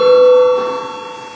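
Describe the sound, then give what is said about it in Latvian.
A bell rings in a parliament chamber before a vote, giving a single steady mid-pitched tone that holds loudly for about half a second, then cuts off and leaves a fading ring. “Lūdzu zvanu. Lūdzu balsošanas režīmu.”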